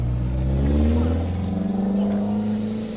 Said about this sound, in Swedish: Det är en stridström av bilar som rullar in.